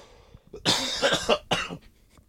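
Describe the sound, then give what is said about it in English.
A person with whooping cough goes into a coughing fit: several harsh coughs in quick succession, loud against a quiet background, with no speech. “Whooping cough. We all have whooping cough.”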